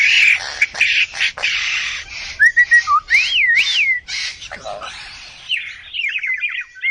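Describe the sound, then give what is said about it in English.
Whistled song of a sembagam, the greater coucal of the cuckoo family: varied phrases of clear notes, looping up-and-down slides and short rasping bursts, ending in a rapid trilled series, fairly loud against a quiet background. “It's true. It's not particularly pretty, the sembagam song, but it is amazing.”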